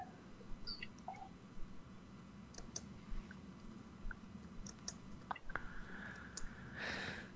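Faint typing on a keyboard, with soft, irregular key clicks scattered across a quiet background and no talk.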